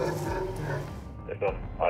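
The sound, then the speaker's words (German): Dogs bark during a vehicle check, two short, sharp bursts following a stretch of people talking. “Da ist jemand bei der Hunde. Die Hunde bellen, ja.”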